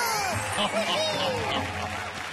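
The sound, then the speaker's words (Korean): Applause rises in a steady wash of clapping, with voices speaking and exclaiming over it. “박수!”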